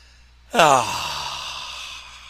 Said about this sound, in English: Deep breath in. Deep breath in.